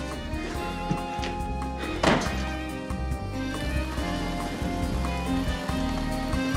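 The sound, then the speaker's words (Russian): Heavy rain pours down in a dense, steady hiss, with one sharp thud standing out about a third of the way through. “Очень сильный ливень.”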